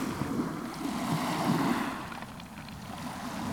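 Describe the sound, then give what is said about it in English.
Tide and surf wash over the rocks and rock pools of a beach at Blind Gap near Bexhill, East Sussex, as a steady, full hiss with wind buffeting the microphone and no voices. “I've just taken a few field recordings of rock pools and the rocks and the tide and the beach at Blind Gap in East Sussex near Bexhill.”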